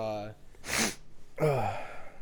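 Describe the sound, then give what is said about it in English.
A single sharp, breathy sneeze from a person turned away from the microphone, set between short voiced sounds just before and after it. “Sneezed out of the direction of the mic”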